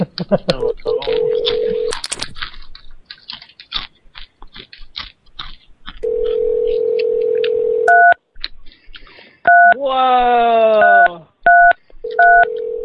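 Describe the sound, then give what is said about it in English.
Touch-tone telephone dialing: a steady dial tone hums, then a few sharp, evenly pitched keypad beeps sound one after another. People talk before the tones begin. “Let's just call another number and leave him alone.”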